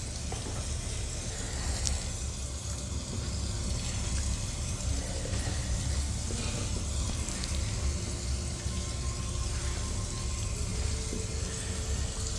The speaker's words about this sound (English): All right, turn the fan on, get the breeze going in here.